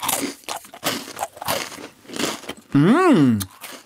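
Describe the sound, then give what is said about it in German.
Crunching as a thin, crumbly Serbian biscuit the length of a thumb, like a butter biscuit, is snapped and eaten: a few crisp crunches and bites, then a short hummed voice sound. “Es ist so lang wie mein Daumen, würde ich sagen, aber ganz dünn und sieht aus ein bisschen aus wie ein Butterkeks. Ich breche den mal durch und ich esse mal.”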